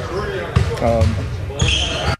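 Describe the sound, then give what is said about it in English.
A basketball is dribbled on a gym floor during a team practice, giving a few sharp, hollow bounces that punch through the ongoing talk of people nearby. “Why do you got to do it right next to the floor where the guy pounding the ball into the floor?”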